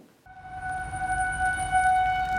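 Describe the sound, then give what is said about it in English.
Tornado warning sirens blare across Denver during severe weather. A loud, steady, sustained tone starts abruptly and holds over a low rumbling background. “The rain was falling and severe weather was rolling through Denver, but the tornado sirens that blared through the city on June 8th should never have sounded.”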